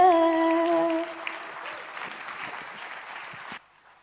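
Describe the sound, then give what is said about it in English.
An audience claps steadily at an evening event with live singing. A dense patter of many hands starts under a held sung note that fades, then the clapping stops abruptly just before the end. “your clapping can have a little more energy tonight”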